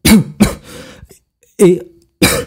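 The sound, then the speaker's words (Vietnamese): A man coughs violently after choking on medicine: four harsh, rough bursts come in two pairs separated by a brief pause, with some wheezy breath trailing after the second cough. “Mông Phương Lượng lại một lần nữa bị sặc thuốc, ho sù sụ.”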